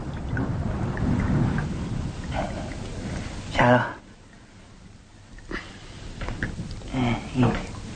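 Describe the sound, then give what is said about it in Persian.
Rain falling in a steady wash of patter, broken by a few louder, deep rumbling bursts like thunder that swell and fade before the rain noise settles back down. “حتما یه حکمتی بوده که این بارون اومده. سلطان عزیز خواسته که این بارون بیاد منم خیس بشم.”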